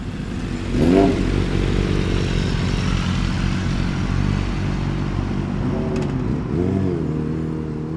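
A motorcycle engine runs with a loud, steady, throbbing idle at a custom-bike building challenge event. Two quick throttle blips rise and fall in pitch above the rumble.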